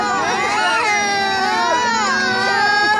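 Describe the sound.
Many hungry young children crying at once in a loud, dense chorus of wailing voices. The high pitches waver and overlap continuously throughout.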